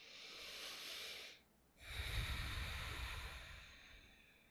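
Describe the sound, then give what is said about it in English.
Slow, deep breaths taken during a relaxation exercise: a long, airy breath, a brief quiet gap, then a second, fuller and louder breath that fades gradually. No one speaks. “Find some space, get relaxed, take a deep breath in and out.”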